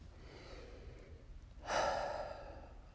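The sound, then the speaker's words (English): A single deep breath taken as part of a breathing exercise: a breathy rush that swells suddenly, then slowly fades over a soft steady background. “And I'd like to start just with some breaths.”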